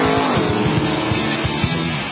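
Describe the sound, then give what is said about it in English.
Sports race cars roar past during a sports car race, a loud, continuous engine drone with a steady low rumble and dense grinding texture that holds throughout. “Sebring, the biggest sports car race of them all, March 18th through the 21st.”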